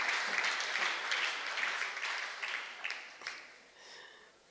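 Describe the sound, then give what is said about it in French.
An audience claps in a hall during a church thanksgiving gathering, with dense applause at first that thins and gradually fades over the final seconds, leaving a few softer claps. “Acclamez le Seigneur pour la salle que vous voyez. Clap the Lord for the hall you can see.”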